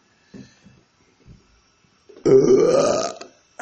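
A loud, drawn-out burp of about a second, rough and croaky, preceded by a few faint short sounds.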